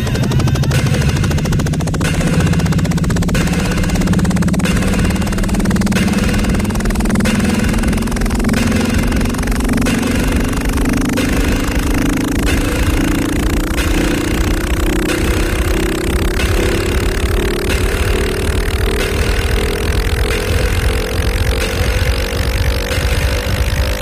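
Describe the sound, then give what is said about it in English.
An aircraft engine running before takeoff, a loud, continuous droning roar with a steady pulsing beat, its tone rising slowly throughout. “Have your attention, please. We're now ready for takeoff, so please fasten your seatbelt.”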